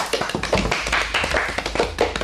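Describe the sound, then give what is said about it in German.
Applause for third place in a quiz, many quick, uneven hand claps from a small group that run steadily throughout. “Applaus bitte einmal.”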